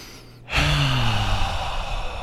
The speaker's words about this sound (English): And then we'll just let everything go on the exhale. Let's do it in 3, 2, 1, all the way in through the nose.